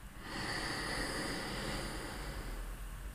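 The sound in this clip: A slow, deep breath drawn in during a relaxation breathing exercise, a steady airy rush that holds evenly for about three seconds with no talking.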